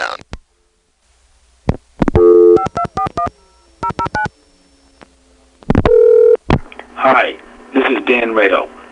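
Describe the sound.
Answering machine recording with touch-tone dialing: bursts of sharp dual-tone beeps, a thin sustained tone, more loud beeps, then a voice speaking at the end.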